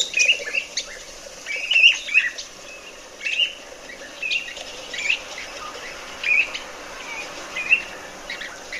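Birdsong played from a recording: high, bright chirps and short trills repeat every second or so, fairly faint over a quiet background.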